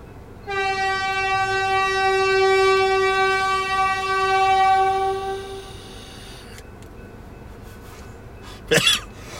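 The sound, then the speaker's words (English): A train horn blows downtown in one long, steady blast of several seconds, loud and unwavering in pitch, then cuts off, leaving a low background rumble. “it's sad because they're not even supposed to blow the horn downtown, but they've been blowing the horn recently for some reason.”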